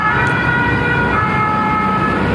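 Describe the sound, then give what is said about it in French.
Sirens of fire emergency vehicles responding to a forest fire at a seaside resort: a loud, continuous wailing tone mixed with dense engine and road noise, steady from start to finish. “la quiétude de cette station balnéaire est remplacée par le bruit des sirènes”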